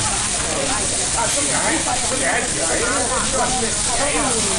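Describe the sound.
Beef tenderloin tendon skewers sizzle on a hutong barbecue grill, a dense, steady hiss and crackle that runs the whole time while people talk over it.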